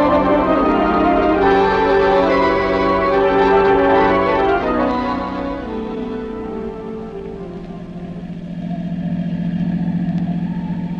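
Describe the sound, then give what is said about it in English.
Car engine droning as the car drives home late at night, a steady low hum, louder in the opening seconds, dipping briefly, then swelling again near the end. “It'll be midnight before we get home, but I'm afraid to drive any faster.”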